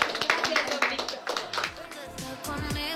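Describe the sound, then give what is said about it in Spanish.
Scattered applause for two guests on a radio program: a few hands clapping in quick bursts, fairly faint, mixed with speaking voices. “Aplausos sí, para ambos.”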